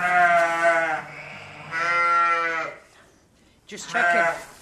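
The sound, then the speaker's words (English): A ewe bleats while giving birth to twin lambs, with three long, loud, strongly voiced bleats separated by short pauses and a quieter stretch before the last one. “Olivia steps in to help her deliver her twin lambs”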